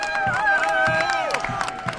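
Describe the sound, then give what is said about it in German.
Cheers and applause greet top candidate Winfried Kretschmann as he arrives at an election-night party outside a pub, with excited shouting voices over scattered clapping. “Als Spitzenkandidat Winfried Kretschmann eintrifft, Hurra-Rufe und Applaus.”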